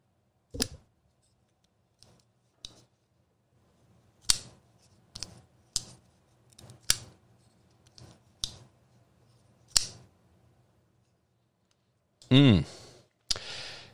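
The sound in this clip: A Chris Reeve Sebenza folding knife clicks open and shut again and again. Crisp, sharp metallic clicks are spaced at uneven intervals, many of them standing alone against near silence.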